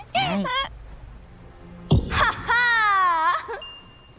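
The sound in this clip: A cat cries out in two drawn-out, wavering yowls with a sharp thump between them, the second cry longer and steadier in pitch.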